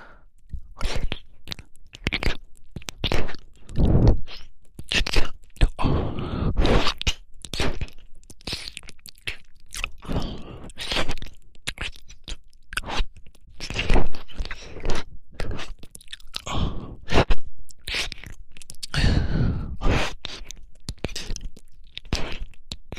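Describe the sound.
ASMR mouth sounds of pretend ear eating: many close, wet smacks, crunches and clicky bites in an irregular, busy rhythm, rising and falling in loudness throughout, with no talking.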